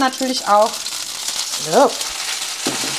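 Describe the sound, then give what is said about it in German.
Ciabatta toasting cut side down in olive oil in a pan on the stove at lowered heat, a steady bright sizzle and hiss running throughout while people talk over it. “Ich lasse die Pfanne einfach direkt auf dem Herd, Schüsschen Olivenöl rein und dann rösten wir hier schön eine Stufe niedriger unser Ciabatta von der Schnittseite.”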